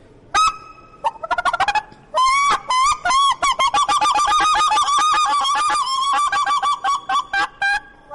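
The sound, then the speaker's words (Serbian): A goose call device imitates geese honking. Loud, nasal honks come first as short separate bursts, then as a long run of rapid, nearly continuous honks, then as spaced honks toward the end. “Ajde neku drugu životinju da dozovemo još nešto. Da dozovemo gusku.”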